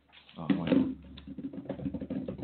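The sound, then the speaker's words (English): A drum roll of rapid, even taps, played as a fast patter that continues steadily for a couple of seconds. The taps are light and fairly quiet. “Can I get a drum roll?”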